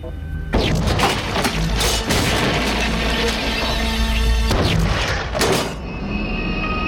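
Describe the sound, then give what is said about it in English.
Film gunshots and a body crashing through an office partition: loud booming shots and a heavy shattering crash of breaking material within dense, sustained noise, with a second surge of impacts later. “The impact of the bullets hurtle his victim back through the partition and up against the desk in the adjoining office.”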